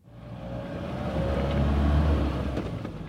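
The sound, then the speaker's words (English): A jeep drives through a national park forest at night, giving a steady low engine and road rumble that swells slightly and holds, with faint hiss above it and no voices. “It's past midnight, and I'm driving with my guide through the forests of Banargatta National Park, 2 hours outside of the city of Bengaluru. Our jeep's high beams cut through the pitch-black darkness,”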